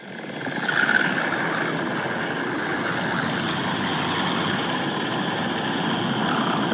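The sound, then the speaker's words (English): Car tires crunching and hissing as they drive over fresh snow, a steady, loud, continuous rush of noise with no pauses for the whole stretch. “This is the sound of car tires scrunching snow while driving over fresh snow.”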